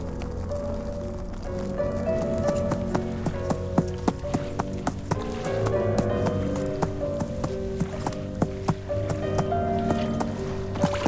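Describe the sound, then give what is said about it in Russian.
Hooves of a horse heading into a river clip-clop in a steady rhythm. Many crisp, evenly spaced strikes ring over a sustained tonal background. “Лошадь входит в реку, волоча тело всадника, и плывет.”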